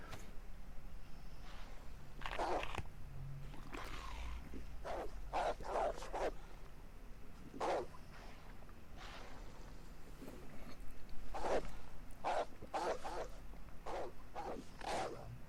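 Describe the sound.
Wolves in a video game bark and snarl in many short, harsh bursts. The bursts come at an irregular pace over a steady low background noise.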